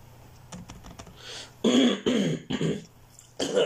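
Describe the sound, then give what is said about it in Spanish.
A person coughing and clearing phlegm from the throat. About four harsh, loud, rasping bursts come after a few faint clicks. “Putas flemas. Siempre que toso así en público y se me quedan viendo”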